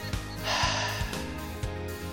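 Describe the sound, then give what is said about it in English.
A group of people take a deep breath together, heard as a soft, rushing breathy swell that rises and then fades, faint and quiet over a low steady background. “Everybody take a deep breath with me right now.”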